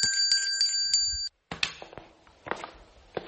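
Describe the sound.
A bell rings several times in quick succession, bright and clear, then falls silent before a series of scattered knocks and clattering handling noises.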